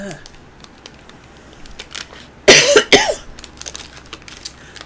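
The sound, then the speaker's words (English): A pair of sharp, harsh coughs from a person whose cough has worsened since having COVID, bursting out loud in close succession over quiet background rustling. “I've had this cough thing that has gotten worse since I had COVID”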